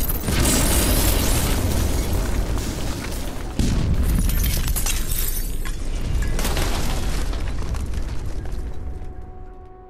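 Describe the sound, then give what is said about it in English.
A thermal detonator explodes in an alley full of droids: a long, loud roaring blast with crackling debris, a second surge a few seconds in, then a slow fade. “He rolls a silver ball into the alley full of used sex bots. A thermal detonator, Earl says, as the droids begin to protest. Then, boom.”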